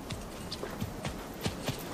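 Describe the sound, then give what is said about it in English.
Hooves of a horse clip-clop as it is urged among rocks, making many soft knocks in a steady walking rhythm, fairly faint and without voices. “So, Parsifal urges his horse among the rocks.”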